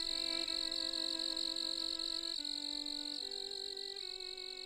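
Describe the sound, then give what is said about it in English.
Insects calling in a dense, continuous chorus: a loud, steady, high-pitched shrill drone fills the whole clip, with lower tonal layers that shift in a few abrupt steps. “I don't think that the calls of insects are made for our enjoyment”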